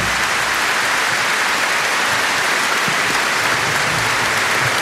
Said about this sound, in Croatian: Ja vas molim još jedan veliki pljesak za tamburaški orkestar Hrvatske radio televizije.